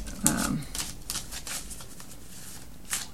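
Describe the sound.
Tarot cards are shuffled and drawn, giving a quick run of soft papery flicks and light taps, mostly faint, with a brighter burst near the start.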